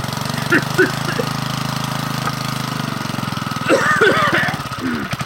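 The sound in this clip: A small pull-start engine sputters in a continuous, uneven low chugging rhythm that grows louder and rougher near the end.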